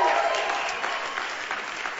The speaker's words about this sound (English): it's going to make for a long service, too, if after every sentence you guys clap.